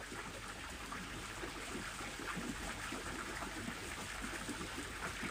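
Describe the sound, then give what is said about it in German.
Gentle splashing and trickling of river water makes a continuous, even burble with no pauses, faint and steady throughout. “lausch auch auf das Plätschern des Wassers.”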